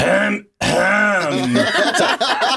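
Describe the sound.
A voice imitates coded throat clearing, a cheating signal from a quiz contestant's accomplice, in two loud, rough guttural bursts: a short one, a brief gap, then a longer, groaning rasp that breaks up at the end.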